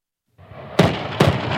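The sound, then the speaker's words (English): Rocket artillery rounds firing from positions in dunes on a shore: two loud, sharp blasts about half a second apart over a continuous low rumble. “Rocket artillery rounds blast out of the dunes and trail smoke over the shore.”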